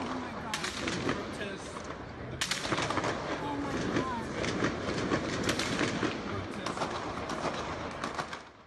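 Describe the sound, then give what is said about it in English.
Several sharp gunshot cracks recorded on video in downtown Dallas, spread irregularly over a steady wash of noise, with voices present. “dramatic sound you can hear of multiple gunshots.”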